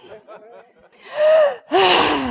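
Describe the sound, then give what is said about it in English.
An audience drawing a deep breath together and then releasing it as a loud, voiced sigh, following a moment of low murmuring. “Everybody go ahead and take a deep breath.”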